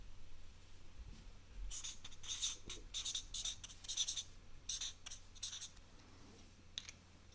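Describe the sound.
Quiz players scratching answers on paper with pens: many short, irregular scribbling strokes, fairly faint over a low background hum.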